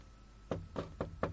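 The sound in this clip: Four knocks on a door in an even, fairly quick rhythm, each a dull, low thud, heard alone and fairly quiet with no talk.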